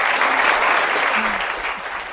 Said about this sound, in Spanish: Estoy aplaudiendo.